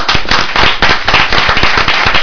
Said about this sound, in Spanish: Un aplauso para nuestros compañeros.